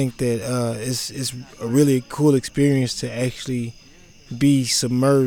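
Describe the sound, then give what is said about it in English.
Crickets chirping on the prairie, a faint, steady high trill running beneath a person talking throughout. “I'm watching everything, but I'm also like taking time to hear the crickets in the background,”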